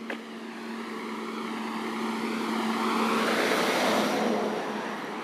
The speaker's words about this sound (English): A truck coming.